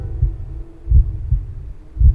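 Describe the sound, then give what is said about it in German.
A heartbeat drums in the ears with a staccato pulse: a few low, muffled thuds, unevenly spaced, over a faint steady hum. “Außer dem staccatoartigen Trommeln meines eigenen Herzschlages, das ich in meinen Ohren festgesetzt hatte.”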